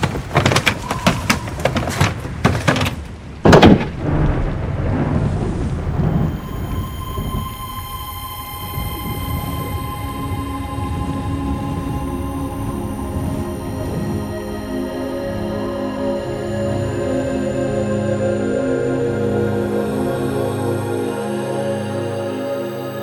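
A door closing in a radio drama: a few sharp knocks and one loud bang early on, then a sustained, steady tonal drone carries on alone.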